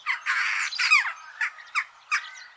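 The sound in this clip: A jackdaw gives a series of harsh, high squawking calls: a longer raspy burst first, then several short, sharp calls spaced apart.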